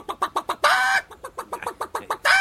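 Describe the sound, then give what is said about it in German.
A human voice imitates clucking hens with a rapid series of short, clipped clucks, broken by a longer drawn-out squawk in the middle and another at the end. “Hennen gehen so.”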